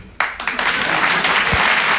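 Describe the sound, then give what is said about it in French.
Audience applause at a stand-up comedy show: a dense clatter of many hands bursts in sharply and then carries on loud and even for about two seconds. “Votre applaudissement, il est trop bien parce qu'il veut juste dire « Elle est tellement naïve !»”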